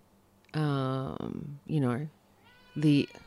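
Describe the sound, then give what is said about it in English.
An elderly pet cat, 22 years old, meows three times: two drawn-out calls separated by a shorter one, each clear and fairly loud against a quiet background, with no talking. “the cat's just come to say hello.”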